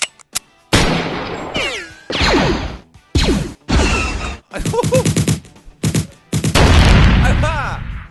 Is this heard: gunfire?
yes